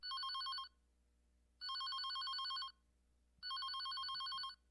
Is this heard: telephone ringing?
yes